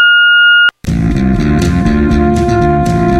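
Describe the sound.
An answering machine message beep: a single steady, pure tone lasting well under a second, then a brief gap before loud music starts abruptly.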